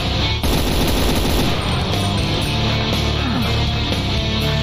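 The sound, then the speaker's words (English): A mounted machine gun fires in a video game, a dense, loud, continuous clatter of rapid shots that lasts the whole clip. There is no talk. “There's that fucking sneaky prick with a mounted machine gun.”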